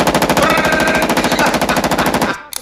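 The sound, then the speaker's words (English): A Steyr AUG rifle fires one long automatic burst of many rapid, evenly spaced loud shots, then cuts off abruptly near the end. “Check out this gun here. Now this here is a Steyr AUG. Steyr AUG's a bad motherfucker.”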